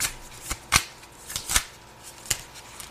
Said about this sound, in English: Thank you. May I have some more cards, please?